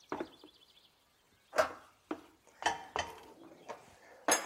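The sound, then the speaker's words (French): Drained pasta goes back into a cooking pot with several sharp metallic clanks and scrapes at uneven intervals, fairly soft overall. “Alors je vais remettre mes pâtes dans ma marmite.”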